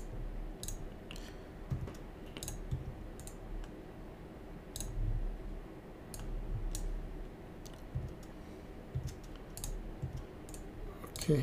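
Computer keyboard taps and mouse clicks come while copying and pasting lines of HTML list code: faint, irregular clicks in small clusters over a low background hum.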